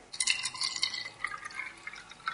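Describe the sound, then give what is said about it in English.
White vinegar pours onto a free-range egg in a jar, a faint trickling and splashing of liquid with small glassy drips throughout. No one speaks. “So we take our egg, a nice free-range egg. We're going to put this into a cup or a jar. And now we're going to pour on white vinegar.”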